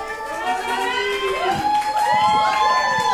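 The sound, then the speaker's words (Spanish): A studio audience at a quiz show cheers for a contestant, with many voices whooping and calling out together in rising and falling tones, steady and loud throughout. “Muy bien, las porras aquí para nuestra participante.”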